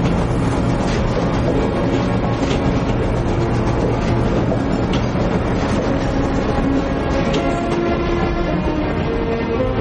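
A steam train of the Second World War era, a deportation train, rolls along the rails with a loud, unbroken rumbling roar and a dense wash of clatter that holds steady throughout.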